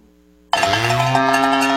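A single loud, sustained moo, cattle at Mid-Missouri Stockyards near Lebanon in a cow sale advert, breaks in abruptly after half a second of low hum and holds steady to the end.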